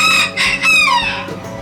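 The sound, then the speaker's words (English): A rooster crowing: one long, loud, drawn-out crow with a bright, wavering pitch, heard alone without any talk. “Cock. Cock. Rooster.”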